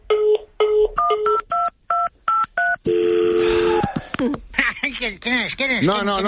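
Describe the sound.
Telephone keypad tones beep in a quick string of many short pitched pulses during a phone prank call, followed by a longer sustained tone and then voices.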